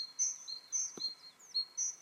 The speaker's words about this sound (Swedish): Vilken var veckans pausfågel? Koltrast? Ja, det var väl talgoxen.